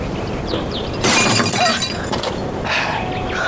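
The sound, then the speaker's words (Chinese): Glass shatters as a thrown liquor bottle breaks: a sudden loud crash of splintering glass, then a few smaller crunching bursts of shards, with no voices. “过去我不开心的时候，就出来飞酒瓶子，飞完了酒瓶子，神清气爽”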